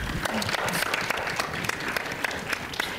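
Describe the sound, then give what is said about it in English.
An audience applauds to welcome a speaker onto an event stage. The clapping is dense and continuous for a few seconds at an even level, made of many overlapping hand claps with no chanting or cheering. “Please put your hands together and welcome Amanda Slavin.”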